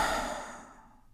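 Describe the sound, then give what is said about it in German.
A long, deep exhale out through the mouth during a relaxation breathing exercise. It is a soft, breathy rush that starts fairly full and gradually thins out and fades over about a second. “Und das geht am besten, wenn wir 3-mal tief ein- und ausatmen. Und zwar durch die Nase ein und lange durch den Mund aus.”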